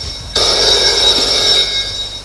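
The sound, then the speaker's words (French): A telephone bell rings in a family home: one continuous, bright, jangling ring that starts abruptly, holds steady and loud for just over a second, then fades out. “Le téléphone sonne.”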